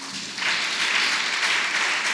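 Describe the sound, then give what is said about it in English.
A church audience claps in praise during a service, a dense wash of applause that swells after a quieter start and then holds steady. “Let's clap hands for Jesus.”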